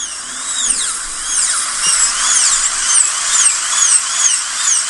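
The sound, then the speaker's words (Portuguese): Dentist's drill whining steadily at a high, thin pitch, its tone repeatedly swooping up and down in short arcs as it runs continuously and fairly loud, with no voices. “tá ouvindo esse barulhinho? Você lembrou de quem? Haha, do seu dentista, é isso mesmo, é a broca lá do dentista.”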